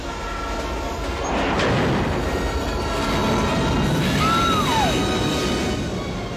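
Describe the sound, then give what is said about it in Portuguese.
Train number 13 arriving at a station, a loud steady rumbling roar that swells and eases, with a short high squeal sliding down in pitch near the end. “Parece que o 13 está vindo na estação. Melhor mudar de linha. Segura firme.”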